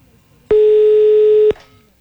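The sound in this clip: A single steady telephone line tone sounds during a call, a loud mid-pitched electronic hum lasting about one second with an abrupt start and cutoff, set between stretches of near silence.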